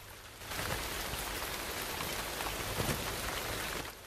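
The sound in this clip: Steady rain pours down on a rugged coastline, a dense, even hiss of countless drops that swells slightly after a quieter first half-second and then holds at a constant level, with no voices.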